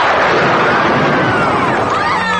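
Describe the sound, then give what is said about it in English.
Lightning bolt spell effect from a tabletop fantasy role-playing game: a loud, dense crackling burst threaded with sweeping tonal whines that arc up and down, sustained for about two and a half seconds. “Use your lightning bolt.”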